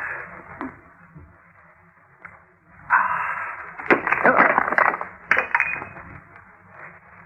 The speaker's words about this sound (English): All I did was put down the stein. It must have had a crack.